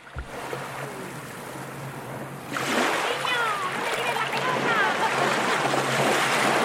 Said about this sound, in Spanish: otro sitio bonito también así de playa, playero. Con sus sonidos de mar.